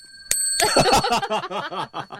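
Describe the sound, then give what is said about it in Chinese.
A small bell struck once gives a sharp, bright ding whose high ringing tone hangs on under people talking and chuckling right after. “要不要打个敲个铃铛呢？”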